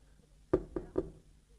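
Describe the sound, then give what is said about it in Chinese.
Gentle knocking on a door: three light, evenly spaced raps in quick succession, each short and fairly soft, against quiet background. “侯君集呢，在外边就轻轻的敲门。这敲门，猪八皮扑棱坐起来了。”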